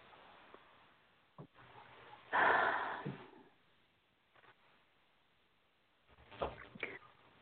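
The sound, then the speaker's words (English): A deep breath, drawn in as a soft, breathy rush lasting under a second, with a fainter second breath near the end amid quiet surroundings. “And take a nice deep, deep breath.”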